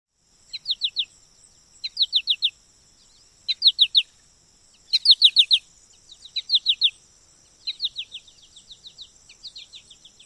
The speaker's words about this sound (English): The first call we will discuss for the American goldfinch is a peppy pachikaree.